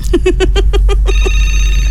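A telephone rings for an incoming caller: a quick, loud trill of short bell pulses, then a sustained ringing tone, over a low steady hum.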